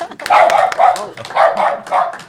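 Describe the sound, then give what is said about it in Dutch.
A dog gives four short, whining, high-pitched barks in an uneven rhythm, each rising and fading, with faint clicks between them. “de hond roert zich ook even”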